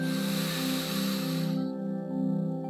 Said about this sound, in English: Settle down, and then one more time all the way in. Breathe in through your nose.